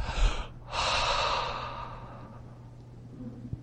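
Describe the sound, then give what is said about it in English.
A voice imitates a sigh: a quick intake of breath, a brief pause, then one long, breathy exhale that slowly fades. “Nafash, according to those who are experts in Hebrew, means to take a breath or to sigh. It's like going,”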